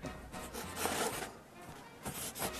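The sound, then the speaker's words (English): Scratchy pen strokes on paper while notes are written down: several short, rough bursts of scribbling with a steady rhythm, fairly soft. “What are you writing down? Are you taking notes? Well, as a matter of fact, I am.”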